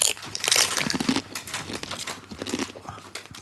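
Cheese-flavoured crisps with chives being crunched, producing a dense, continuous crackle of many sharp crunches that carries loudly throughout.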